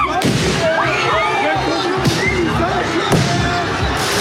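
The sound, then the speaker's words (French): Firework mortars fire during a street clash between high-school students and arriving police outside a school. A few sharp, loud bangs burst through a constant roar of crowd noise and shouting. “Tirs de mortiers d'artifice d'un côté.”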